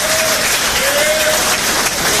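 Applause from an audience welcoming a player's mother and father: dense, steady clapping that holds at an even level throughout without a break.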